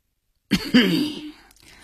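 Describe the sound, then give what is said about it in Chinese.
Coughing and throat clearing in a drama scene: a short sharp burst, then a longer voiced, rasping clear of the throat. The sounds are heard alone, with no talk. “寇少龙又咳嗽了两声，清了清喉咙”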